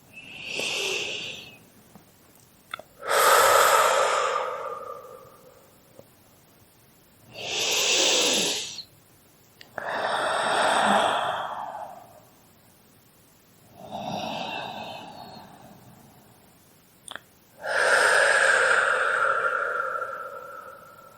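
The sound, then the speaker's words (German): Slow, deep breaths taken during a guided relaxation exercise: several long, breathy swells of air drawn in and let out at an unhurried, even pace. They are heard alone, with no talk over them. “ein paar Atemzüge und nur so 3, 4 wirklich tiefe Atemzüge damit zu nehmen, mit diesem Gefühl von Stolz.”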